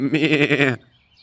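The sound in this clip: A sheep gives a single loud bleat with a quavering, wavering pitch, lasting under a second before dropping to near silence.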